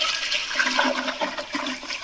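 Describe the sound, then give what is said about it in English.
A toilet flushes and overflows, with a steady rush and gurgle of water that runs on without a break at a moderate level. “every time I flush... Yep. Doing it again. It's just overflowing.”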